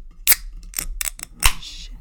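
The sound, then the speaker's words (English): Container tops popped open by hand before tasting a syrupy-smelling drink: a few sharp clicks and snaps, the loudest near the end, followed by a short airy hiss. “Well, let's pop those tops. Let's do it.”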